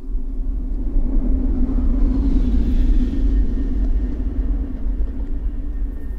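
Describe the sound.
A military armored vehicle rolls slowly along a city street. Its engine gives a deep, continuous low rumble that swells slightly in the middle and then eases off, with no voices.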